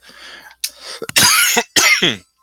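Several harsh coughs from a scratchy throat, coming in close bursts that grow louder toward the end, with a rough, throat-clearing quality and no talk over them.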